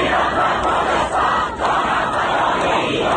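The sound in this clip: A large crowd in Iran chants slogans of unity together in unison, a dense, loud roar of many voices that holds steady throughout with hardly a dip.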